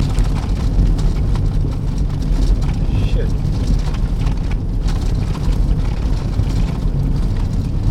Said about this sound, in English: We're driving 80, 75, 80 kilometers an hour. The motor is turning at 2,500